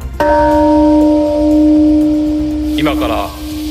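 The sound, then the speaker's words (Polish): A peace bell tolls at a memorial ceremony marking 80 years since the Hiroshima atomic bombing. One deep strike rings out and hangs in a long, sustained, humming decay, with brief voices near the end. “Uroczystości rozpoczęło bicie dzwonu pokoju.”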